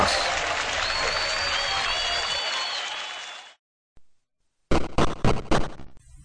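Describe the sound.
Cheering and applause sound effect marking the crowning of a first grand champion: a dense, loud wash of clapping and crowd noise with a thin high whistling tone for about three seconds, then a brief silence and a run of choppy bursts.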